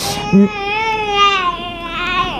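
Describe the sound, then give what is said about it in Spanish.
A baby cries in a sustained, tonal wail with rich harmonics, rising and wavering slightly. A brief sharper yelp comes near the start, and the cry stays loud throughout. “Mira, es un bebé llorando.”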